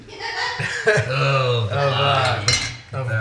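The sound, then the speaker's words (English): Metal clinks and scrapes as a pot of melting sugar is rotated on the stove, a voice sounding alongside the steady handling noise. “So I'm just constantly rotating the pot.”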